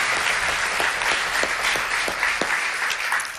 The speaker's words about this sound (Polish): Wielkie brawa.